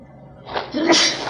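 A single sneeze bursts out during a lesson of Quranic commentary. A short breathy intake swells into a sharp, bright burst.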